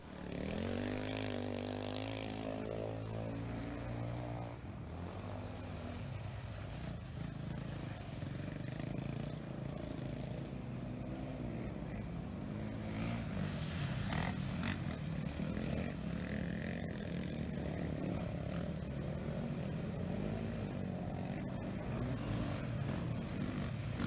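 Motocross motorcycles roar through a training session at Lierop, a loud, continuous, gritty engine drone that never lets up, with a harmonic whine standing out clearly in the first few seconds.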